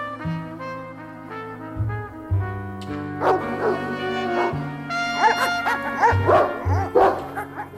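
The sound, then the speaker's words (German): Dobermanns behind a wire-mesh fence bark and yelp wildly in rapid, overlapping bursts over a steady low tonal background, the barking growing busier and louder through the second half. “Die Hunde springen am Maschendraht hoch, bellen wie toll.”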